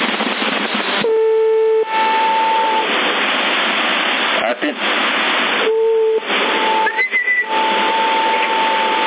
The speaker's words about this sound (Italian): È la trombetta, c'è la tromba sotto. Quindi senti ancora la tromba trombina?